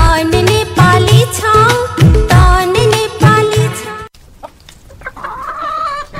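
Chickens on a poultry farm cluck loudly in busy, clipped bursts for several seconds. The sound then drops to a quieter stretch with a few scattered calls.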